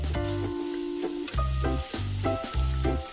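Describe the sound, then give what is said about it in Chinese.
Giant freshwater prawns coated in starch and salt sizzle steadily as they pan-fry, a constant bright hiss layered under rhythmic background music chords, with no voices. “接着将虾放进锅中煎制，随后放入青红椒、葱段。”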